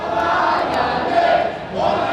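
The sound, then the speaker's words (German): A crowd chants a victory cheer on the night Macron was elected president of France. Many voices rise and fall together in loud, sustained, rhythmic swells, with no pause. “Wir haben gewonnen. Dieser Jubelruf wird immer wieder angestimmt.”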